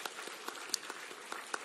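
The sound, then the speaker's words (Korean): A church audience gives a short, light round of applause. Soft patter runs throughout, and a few sharper individual claps stand out. “그 하나님께 우리 영광의 박수 한번 올려드리겠습니다.”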